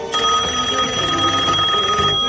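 A telephone bell rings for an incoming call, a bright metallic ring that sounds loud and unbroken almost to the end.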